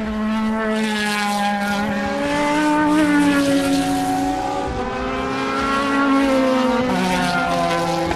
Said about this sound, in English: It's one of the closest points you can get on the circuit as a Ferrari comes by.